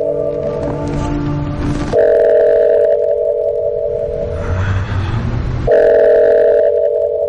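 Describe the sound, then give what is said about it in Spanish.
Telephone ringing with an incoming call: a steady, loud electronic tone held for several seconds, with a change in texture partway through and a second stretch near the end, heard alone without voices. “contempla la imagen con desolación cuando repentinamente recibe una llamada de Sara”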